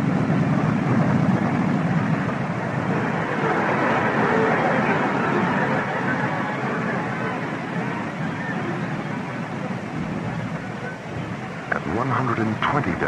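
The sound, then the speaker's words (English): A starship sound effect from an audio drama, flying and banking: a dense, steady engine roar holds at a fairly even level throughout, with a faint brighter flutter near the end. “The starship banks 18 degrees, angles up, and races toward the penetration corridor over Illyria.”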